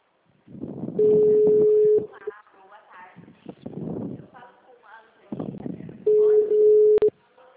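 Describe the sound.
A telephone call rings unanswered before going to voicemail: two long, steady ring tones of about a second each, with voices between and after them and a short blip near the end.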